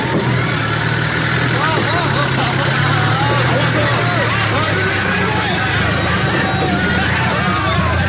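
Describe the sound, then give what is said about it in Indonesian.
A car engine drones steadily as the car turns onto a foggy off-road track. The loud, continuous mid-pitched drone carries a rough rumble from start to end. “Kini aku belokkan mobilku ke jalur off-road. Mobil pun berguncang.”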